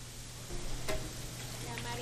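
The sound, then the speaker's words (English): Pasilla brisket browning in a pan gives off a steady, even sizzle, a dense hiss over a low constant hum that swells slightly partway through. “pasilla brisket, which I am just browning the meat now and about to go back into the sauce”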